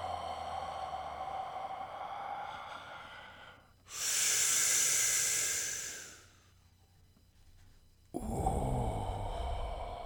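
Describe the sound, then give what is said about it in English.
Slow, controlled deep breathing: one long, loud inhale of about two seconds, a quiet pause, then a strong breath out begins, breathy and airy with no words. “slow, controlled, deep breathing. Like, oh.”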